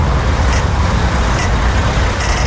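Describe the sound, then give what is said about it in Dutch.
Pedestrian traffic light signal at a street crossing: a few sharp, bright ticks at a slow, regular pace, heard over a loud, constant rumble of passing road traffic. “En ik heb even een geluidje meegenomen van verkeerslicht om te laten horen hoe weinig tijd je eigenlijk hebt.”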